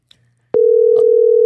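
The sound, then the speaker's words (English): Telephone dial tone of an outgoing call: a steady, loud, single-pitch hum that starts abruptly after a faint blip and holds unbroken to the end. “We got at least a phone dial going through.”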